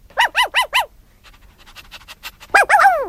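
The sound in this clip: A dog makes soft, rhythmic panting breaths between short, high, squeaky whining calls: four quick calls at the start and louder, drawn-out whines at the end.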